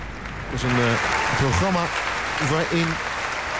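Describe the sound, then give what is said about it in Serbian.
Warm applause from a concert audience after a baroque music program. Steady, dense clapping runs throughout while a voice speaks over it in a few short phrases. “Imamo veoma topao prijem publike, odnosno aplauze za večerašnje izvođače.”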